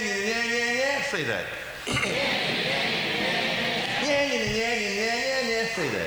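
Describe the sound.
A human voice imitates an ugly bird song heard by a hunter in a forest, chanting one syllable over and over in a rapid, wavering, nasal line with a short dip in the middle. It is loud throughout.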